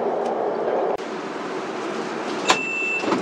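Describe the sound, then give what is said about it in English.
A Beijing subway train arriving at Panjiayuan station rumbles steadily, with a sharp click partway through and a brief clank near the end over the constant hum of the moving carriage. “潘家园站到了， We are arriving at 潘家园 station。列车运行前方是十里河站，”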